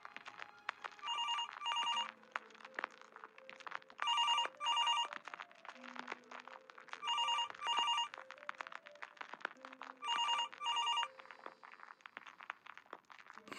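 A telephone ringback tone sounds as a call is placed to a home, with four double-pulsed rings spaced evenly at a quiet, steady level.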